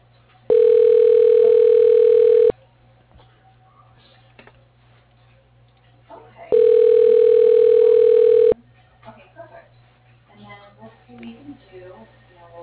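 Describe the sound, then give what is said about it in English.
Telephone tone on an office line during extension dialing: two long, steady, loud tones of about two seconds each, separated by a pause of about four seconds, with faint clicks and rustling between and after them. “Extension dialing.”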